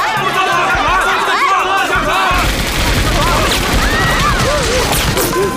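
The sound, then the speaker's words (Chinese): Gunfire from several guns shooting at once, a dense, loud barrage of overlapping bangs that thickens partway through, with shouting voices mixed in. “开枪！ 开枪！枪！ 枪！”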